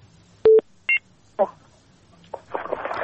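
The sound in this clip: Telephone dialing tones as a caller is connected to a radio phone-in: a few short electronic beeps and paired tones, then a burst of crackly, hissing line noise that builds toward the end.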